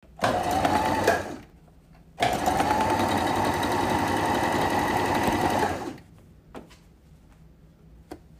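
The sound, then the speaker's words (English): A sewing machine stitching patchwork fabric sewn inside out: two runs of steady, loud mechanical whirring, a short one and then a longer one of about four seconds, followed by quiet and a couple of faint clicks. “Okay, I just finished sewing three sides.”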